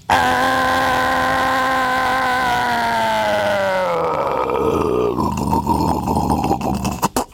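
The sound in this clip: A voice imitates a 20-horsepower outboard motor on a small console boat. It makes a loud, steady droning hum that drops in pitch midway, then turns rougher and more sputtering toward the end, with no other sound.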